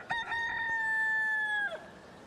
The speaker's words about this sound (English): We have audio of the rooster, sir.